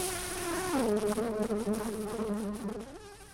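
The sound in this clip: Bees, studied as important pollinators of crops and wildflowers, buzz in a loud, continuous drone whose pitch wavers and shifts throughout, with no voices.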